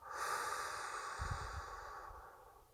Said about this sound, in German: Ich atme ein und ich atme aus.